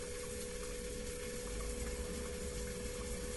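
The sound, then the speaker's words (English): Water spraying from a bidet toilet's wash nozzle at its power setting makes a steady hiss with a low pump hum underneath, even and unbroken throughout with no voices. “And this is power butt wash.”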